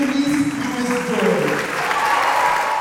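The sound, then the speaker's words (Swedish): Audience applause at a community meeting greets the Democratic nominee for mayor as she takes the microphone; steady clapping runs throughout, with a voice speaking over it. “Janice Lewis-George är klädd i knallrosa kostym, och hon möts av applåder när hon vant greppar mikrofonen.”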